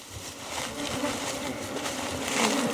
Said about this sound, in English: Millionaire is just lifting them out now, and each time she does, thousands of bees just come rushing out. They're absolutely swarming around us.